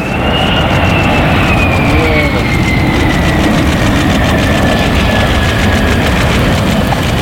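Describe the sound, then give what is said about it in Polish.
F-35 fighter jets escorted by Polish F-16s make a low flyover above the runway at Łask air base, giving a continuous, loud jet roar with a high whine that slowly falls in pitch throughout. “F-35 przyleciały do bazy w Łasku w eskorcie polskich F-16. Nad samą płytą dwa niskie przeloty.”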